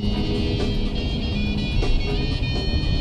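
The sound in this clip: A car drives off from a country roadside, its engine a steady, low rumble that holds fairly even throughout.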